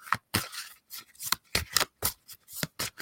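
Oracle cards being shuffled and drawn from a deck: many quick, crisp papery riffles and slaps in short bursts, with no voices.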